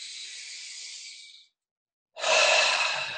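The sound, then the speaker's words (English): Breathing during a guided breathwork exercise: a soft, airy hiss as breath is drawn in through the nose, then a short silence, then a louder, fuller exhale that continues to the end. “Breathe in the nose. Let it go. Breathe in.”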